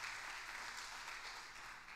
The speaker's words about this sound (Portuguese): Dá uma salva de palmas a ele se você crer.